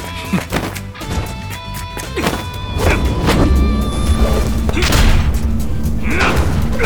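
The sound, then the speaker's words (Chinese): Heavy booms and thuds as a fist knocks away a cannon shell in a dramatized fight. A dense run of impacts swells into a loud, sustained crashing roar over a tonal bed. “我靠，队长开霸体用拳头轰掉了炮弹， 太帅了。”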